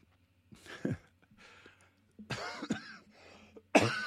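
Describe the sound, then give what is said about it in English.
A preacher coughs during a sermon: a few harsh, throaty coughs separated by short pauses, the last one the loudest, with no words spoken. “Oh, excuse me, I'm sorry. Oh, hallelujah. Getting emotional and coughing at the same time doesn't go well.”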